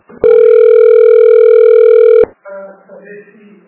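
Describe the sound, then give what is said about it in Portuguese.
A telephone tone sounds as a call is transferred: one steady, loud, pure beep lasting about two seconds. It stops abruptly, and a brief, fainter voice follows. “eu vou transferir a ligação aqui pra mãe”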